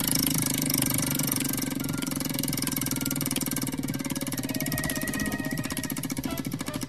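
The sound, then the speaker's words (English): A prize wheel is spun, its pointer clattering in a loud, dense, continuous run of rapid ticks that lasts the whole clip, with no talking. “we play what the wheel lands on. So give it a spin there”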